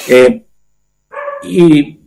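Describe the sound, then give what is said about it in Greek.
Dogs barking at home: a couple of loud, harmonic barks separated by a short pause, mixed with a person talking. “Ζητώ συγγνώμη για τις παρεμβολές των σκυλιών μου, αλλά. Η φωνή της φύσης δεν είναι κακό.”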